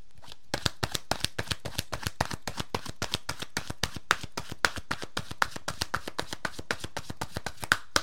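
Oracle cards shuffled by hand before one is drawn: a long run of many sharp, fairly regular slapping clicks, steady and moderately loud, with no talk.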